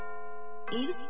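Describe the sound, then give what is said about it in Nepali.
A radio station's hourly time signal chime rings as a steady, sustained bright tone with rich overtones, then cuts off as a voice starts speaking over it. “साहिनो समय सूचक अहिले दिउँसोको 4 बज्यो।”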